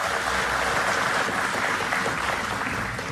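Audience applause for the conductor of a radio folk music ensemble at a concert: dense, even clapping that holds steady for the whole short stretch.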